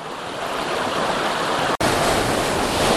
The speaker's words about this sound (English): I found a waterfall. It's not the waterfall I was looking for, but it's pretty flipping massive